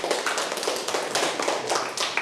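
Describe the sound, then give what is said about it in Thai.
A class of students claps for a classmate, producing a dense, even patter of many hands lasting a couple of seconds at moderate loudness, with no voices. “ปรบมือให้เพื่อนค่ะ”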